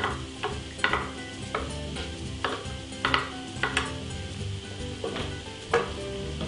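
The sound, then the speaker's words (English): Shallots sizzle in a hot pan with a steady, moderately loud frying hiss. Several sharp utensil scrapes and knocks from stirring cut in at irregular intervals. “we're going to add the shallots in here. Let those cook up.”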